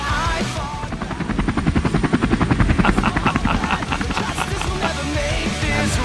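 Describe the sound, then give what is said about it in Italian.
Guardia di Finanza helicopters flying, with a steady, loud, rhythmic rotor thumping that runs through the whole stretch alongside a broad engine roar. “Gli elicotteri della Guardia di Finanza.”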